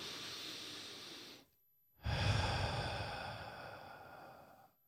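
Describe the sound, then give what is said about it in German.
A slow, deep breath taken to calm down: two long, airy, hissing breaths, each lasting over a second, with a short silent pause between them. “Bevor wir irgendwas sagen oder machen, einmal erstmal so tief atmen.”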